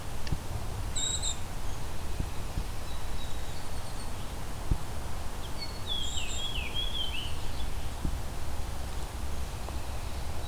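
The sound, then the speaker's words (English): A fox sparrow sings a short, melodic run of high, sliding notes, faint over a steady background hiss. A few brief high notes sound earlier. “That's the song of the fox sparrow.”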